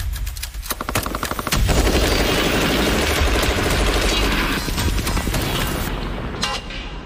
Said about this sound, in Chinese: 当步兵班需要持续的火力支撑， QJB201班用机枪便是战场环境下不可或缺的武器。